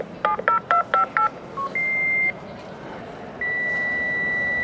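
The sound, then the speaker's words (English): A fax machine dials with a quick run of bright touch-tone beeps, then gives a short steady tone. A long, continuous high transmission tone follows over a faint background hiss. “For listeners too young to remember, this is a fax machine, a relic”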